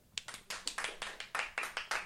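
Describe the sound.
Sparse, faint clapping from just a couple of audience members, about a dozen crisp hand claps at an uneven pace with no talk.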